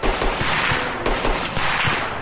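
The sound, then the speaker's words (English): Automatic gunfire in a firefight in the snow: loud, dense rattling bursts of rapid shots, with a fresh burst starting about halfway through, and no voices. “Hit the snow! Return fire!”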